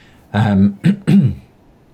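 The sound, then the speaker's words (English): Throat clearing: a long, rough, voiced rasp followed by two shorter, sharp bursts in quick succession, fairly loud and alone. “Just getting a bit of a frog in my throat.”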